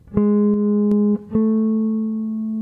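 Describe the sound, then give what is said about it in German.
A G sharp leading tone sounds as a clean sustained note, breaks off briefly, then a note a step higher, toward A minor, rings out and slowly fades. The tones are pure and steady, with no voices. “Dieser Leitton hin zu A-Moll ist das Gis.”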